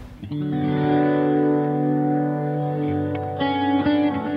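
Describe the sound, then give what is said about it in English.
Electric guitar runs through a pattern delay with a different pattern from each of two amps, plus a Mobius pedal on a stereo rotary setting. A held, distorted, swirling chord sustains with echoing repeats, and a few fresh strums come late. “doing like a pattern delay out of different pattern out of each amp. And it's got the Mobius is set to rotary, which also has a stereo feature”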